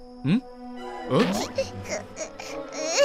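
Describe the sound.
An infant cries: a brief wail, a short pause, then a longer, fairly loud stretch of wavering, broken sobs and whimpers with breathy catches.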